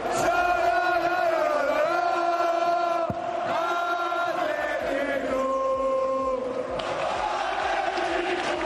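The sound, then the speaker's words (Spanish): A football stadium crowd at a cup match roars and chants in unison, loud and sustained. Massed voices hold tonal notes that shift in pitch, with a brief dip partway through before the chanting swells again. “Así sonaba ayer San Mamés y seguro que la afición del Betis también rugía con la clasificación tanto de los de Marcelino que como con los de Pellegrini.”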